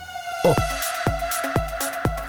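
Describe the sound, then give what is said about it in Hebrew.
A siren sound effect: a warbling electronic wail that cycles in quick, regular pulses, loud and heard alone. “סירנה, סירנה.”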